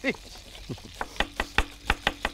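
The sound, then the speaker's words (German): A knife chops onions on a board in a quick run of regular, crisp taps. A voice is heard briefly at the start. “Der schnellste Zwiebelschneider von hinten rechts.”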